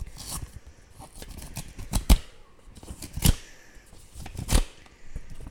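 A birthday present being unwrapped: crinkly paper rustling and crackling, punctuated by three louder tearing bursts, with no talk.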